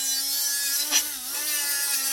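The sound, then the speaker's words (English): Steady buzzing hiss of a welder at work on an aluminum custom running wheelchair frame in a workshop: a constant electrical hum beneath bright crackling noise, with one brief louder burst near the middle. “A welder is working on an aluminum wheelchair frame.”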